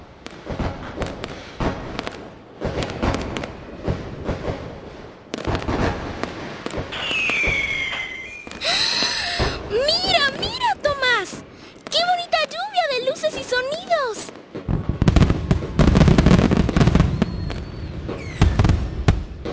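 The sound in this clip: Fireworks exploding in many crackling pops and sharp bangs, with whistling tones sweeping through the middle of the display and a denser, louder burst of crackle toward the end.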